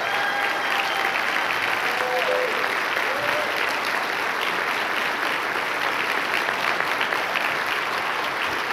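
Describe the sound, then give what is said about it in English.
Audience applause welcomes home a Marine fresh from boot camp graduation. Dense, steady clapping holds at an even level from start to finish. “Would you welcome Austin back home? Awesome. Come on, give it up for Austin.”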